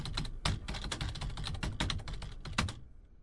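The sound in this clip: Rapid typing on a computer keyboard: many irregular key clicks with a few heavier strikes, stopping shortly before the end.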